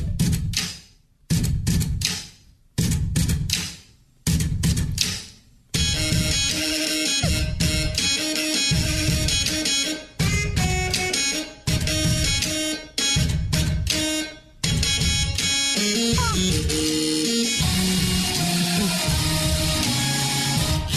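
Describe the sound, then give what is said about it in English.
A rhythm played on an electric toothbrush, an epilator, a credit card machine, three typewriters and a ladies' shave razor. It opens with short buzzing bursts in a stomping pattern, then moves into sustained droning tones that shift in pitch like a melody. “Using an electric toothbrush, an epilator hair remover, oh, credit card machine, 3 typewriters, and a ladies' shave razor.”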